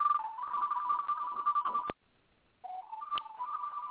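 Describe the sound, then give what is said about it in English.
A mobile phone ringing, faint and alone. It rings in two bursts of a warbling, high electronic tone that steps between pitches, separated by a short silence. “my wife's phone.”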